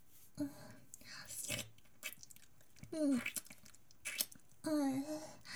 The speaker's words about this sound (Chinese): 我准备了一份冰淇淋，现在吃给大家听好吗？凉凉的，